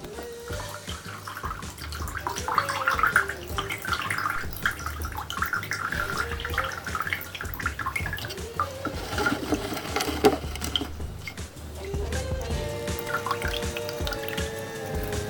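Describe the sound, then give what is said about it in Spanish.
A water mixture drips and trickles through a filter packed with yerba, a continuous, fairly loud patter of drops running steadily from start to finish. “Ponemos la mezcla sobre el filtro. Y dejamos que se filtre.”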